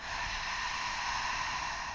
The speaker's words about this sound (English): let's take a nice deep breath in and out